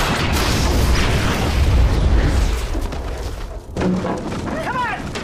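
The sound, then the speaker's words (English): An explosion blasting out the side of a building, heard as a loud, sustained, deep rumbling roar that fades after a few seconds, with a voice speaking briefly afterward. “Blast takes out the whole side of the building.”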